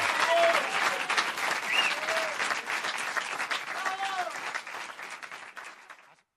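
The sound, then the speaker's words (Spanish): An audience applauds after a joke at a live humor show: dense, steady clapping with crowd noise that holds for several seconds, then tapers off and fades out. “¡Fuerte la aplauso!”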